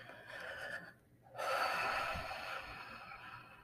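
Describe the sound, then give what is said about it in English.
Deep breathing during a guided grief meditation: steady airy breath, a brief near-silent pause, then a longer, louder breath that holds and slowly tapers. No words are spoken. “Let's take some deep breaths there.”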